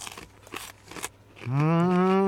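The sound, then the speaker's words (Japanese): Kyoto senbei, a crunchy Japanese rice cracker, being chewed: three crisp crunching bursts, then a long, loud hummed 'mmm' from a voice with steady pitch. “京 都って、 うん、 おせんべい有名なのかな。美味しい。”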